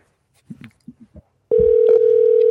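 A steady, single-pitched dial tone sounds on an iPhone call, starting abruptly after a few brief faint sounds and holding unbroken to the end.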